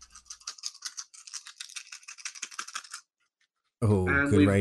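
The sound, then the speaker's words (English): D&D dice rattle and clatter as they are shaken and picked out, a quick run of light clicking for about three seconds, then a short pause before a voice begins speaking. “I'm using D&D dice here because I've written a number, a dice down to represent one of the four.”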